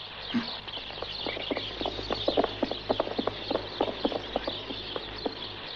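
Horse hooves clip-clopping during a ride: many crisp, even hoofbeats at a moderate, quiet level over a steady low hum.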